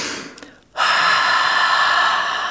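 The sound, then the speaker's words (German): Deep breathing during a relaxation exercise by an open window, with exhales about twice as long as inhales: one fading breath, a brief pause, then a long, loud, steady rush of breath, with no voices. “Fenster auf, 10-mal ganz tief durchatmen, dabei doppelt so lange ausatmen wie einatmen.”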